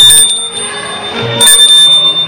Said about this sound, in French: Une cloche sonne.